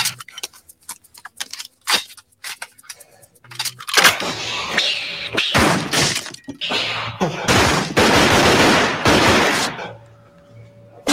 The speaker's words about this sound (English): so much force is coming out of those guns. You'll see that he actually shoots the matte box off of the camera.